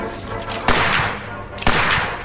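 Two loud, sharp gunshots ring out about a second apart over a steady rushing background noise, each a sudden crack with a short decaying tail.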